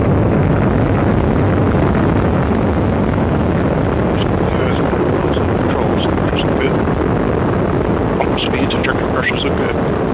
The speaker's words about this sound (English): 1, 0, and liftoff of the Atlas V rocket with Cygnus and the SS John Glenn